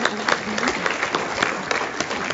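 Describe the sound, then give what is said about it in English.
Audience applause honoring a woman's efforts: brief, steady clapping from a crowd with many overlapping claps, holding an even level throughout. “we might as well applaud Ann Rooney and her efforts right now in helping us to get there”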